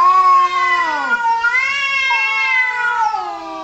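Cats yowling in long, drawn-out, wavering caterwauls, a few loud wails with sliding pitch and no talk.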